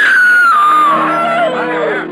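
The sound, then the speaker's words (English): A woman's scream at an evening fair, loud and sustained for about two seconds, high-pitched and sliding steadily downward. “Suddenly, a woman screams.”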